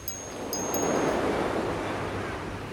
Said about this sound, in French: quelle contrariété contraire que d'écouter la mer